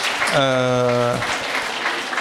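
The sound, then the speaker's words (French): Audience applause at a public talk, a dense, steady patter of clapping that runs through the whole clip, with a sustained voiced tone rising above it early on. “Oui, on peut applaudir, tout à fait.”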